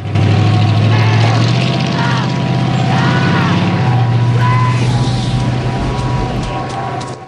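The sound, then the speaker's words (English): A pickup truck pulls away on a dusty road through a parched landscape, its engine making a steady, loud, low drone that holds for several seconds and thins slightly at the end. “Ryder gets into a pickup truck and it drives away.”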